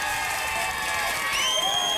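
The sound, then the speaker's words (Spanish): A church audience applauds and cheers for graduates in a dense, steady wash of clapping and voices, with a few high whoops and whistles rising above it. “Así que vamos a darle un aplauso a esas personas que se graduaron. Por aquí tenemos, vamos a ver si podemos darles un aplauso a todas las personas que se graduaron el día de hoy.”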